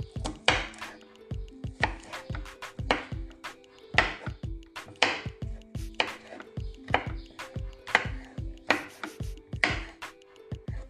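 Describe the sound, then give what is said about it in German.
A kitchen knife chops a garlic clove on a board in many quick, sharp, evenly spaced strokes that keep a steady rhythm from start to end, with no talk over them. “Ich schneide das jetzt einfach.”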